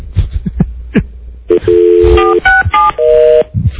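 Touch-tone telephone dialing as a call is placed, a few keypad beeps of uneven length, one long steady tone among them, preceded by brief low thumping sounds.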